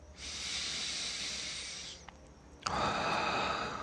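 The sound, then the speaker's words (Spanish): Deep breathing through the nose during a guided relaxation: one long, steady, hissing inhale, a short pause, then a fuller, airy exhale that continues to the end. “Sigue inhalando profundo. Por nariz. Exhala por nariz.”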